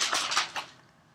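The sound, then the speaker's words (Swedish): Pages of a binder being leafed through: a few quick, crisp rustling flips close together, then a fade to quiet. “Jag tittar i min perm. Nästa veckas huvudämne. Mm. Bläddrar.”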